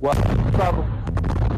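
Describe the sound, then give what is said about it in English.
Blasts from airstrikes in Gaza roll through as a heavy, continuous low rumble, with a few sharper bangs toward the end. A voice is heard over the first half. “more blasts are heard, and he flinches.”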